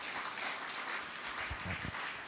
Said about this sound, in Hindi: जोर से तालियां बजाकर होना चाहिए।